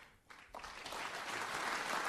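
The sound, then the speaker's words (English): Applause at a political speech on border security and a wall. The clapping starts thin, then swells in a couple of steps into a steady, modest wash that stays fairly faint and restrained. “Applause there, maybe not as robust as he thought it was going to be, but the wall will help.”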